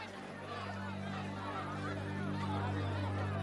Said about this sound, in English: Sam and Jake hurry towards the pavilion where members of the agitated crowd argue with each other.